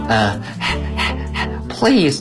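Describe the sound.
A voice imitates a dog panting with a quick run of breathy huffs, then gives a louder barking yelp at the end. The dog is hot and wants its hair cut in a children's story about a farmer shearing sheep.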